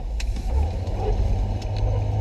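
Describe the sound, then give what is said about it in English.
Low, steady rumble of a car being driven, a continuous deep road-and-engine drone that stays at an even, fairly loud level with no voices over it. “Sorry, I'm driving. I have to make a left.”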